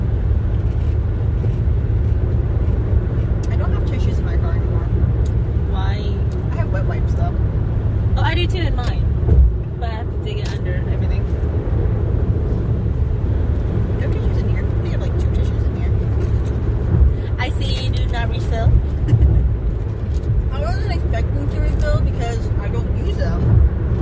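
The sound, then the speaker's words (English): A car being driven gives a steady low engine and road rumble throughout, with people talking over it. “I'm driving.”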